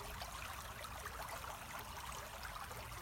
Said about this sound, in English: You follow the river and its flow by the side of you, and its pace.